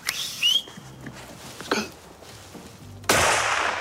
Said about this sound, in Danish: Skød. Du fik den. Det lød godt.